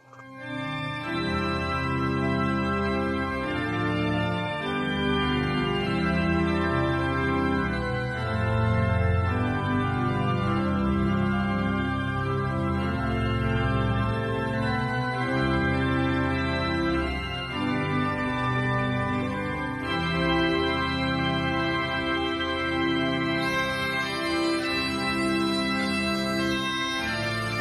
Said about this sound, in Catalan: Susana, quin és l'himne de Lloret? El tenim aquí. Vols que el posem? Vinga, els podem escoltar. Sona així.